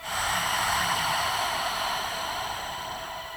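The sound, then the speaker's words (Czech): A long, steady breath of air pushed out through soft, relaxed lips during a deep-breathing exercise: a smooth, airy hiss that swells quickly and then fades gradually over about three seconds, with no talking. “Několikrát se zhluboka nadechněte Nádech přes břicho, hrudník až nahoru do podkliček a vydechněte přes měkké rty, uvolněná ústa a vyšumte všechen vzduch z těla ven.”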